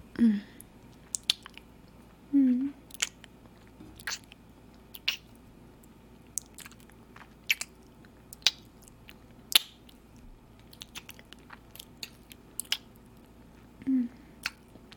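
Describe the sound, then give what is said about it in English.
Kissing, heard as many soft wet smacks and squelchy clicks spread irregularly, with a few louder smacks standing out. The sounds are faint, with no clear talk. “Do you want to kiss some more? Mm-hmm. Yeah, we can do that.”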